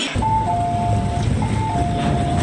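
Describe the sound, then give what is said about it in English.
A Hong Kong MTR metro train arriving at a station, with a loud, steady rumble under a high two-note falling tone that sounds twice. “Right, here's my train. It's fast and it's full”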